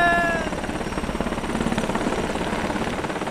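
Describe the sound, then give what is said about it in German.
A Black Hawk helicopter lands: a steady, loud, rhythmic thumping of rotor blades with a brief high whine at the start. The pulses continue without a break through the whole clip, and no voices are heard. “Alles festhalten, Hubschrauber landen!”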